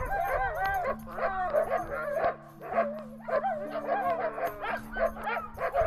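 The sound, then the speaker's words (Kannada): Several dogs from nearby fields bark and yip in a quick, irregular run of many short barks, some whining, over a low sustained musical tone. “ಅಲ್ಲೇ ಪಕ್ಕದ ಹೊಲ ಗದ್ದೆಯಲ್ಲಿ ಕೆಲವು ನಾಯಿಗಳಿದ್ವು. ಏನಪ್ಪ ಇದು, ಕೊಳಲ್ ಶಬ್ದ ಕೇಳ್ತಿದ್ಯಲ್ಲ ಅಂತ ಹುಡುಕೊಂಡು ಬಂದ್ವು.”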